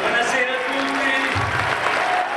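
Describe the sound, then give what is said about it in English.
Crowd applause from Berlusconi's followers at a rally in a luxury Roman hotel: dense, continuous clapping that holds at an even level throughout, with a voice faintly audible over it. “At this rally in a luxury Roman hotel, Berlusconi's followers chant his name, and he revels in their applause and adoration.”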